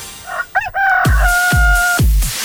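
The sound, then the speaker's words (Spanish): A rooster crows once: a loud, drawn-out cock-a-doodle-doo with a strong, clear tone held for over a second. Short, softer calls come just before it. “Ahí está el gallo, muy bien.”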